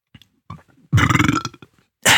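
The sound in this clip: A long, loud, rumbling burp from a man feasting on roast turkey, sounding for about half a second after a few faint short sounds.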